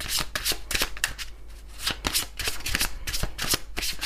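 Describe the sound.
A deck of cards is shuffled in a rapid series of crisp riffling bursts that repeat many times in a steady rhythm, loud and alone without talk.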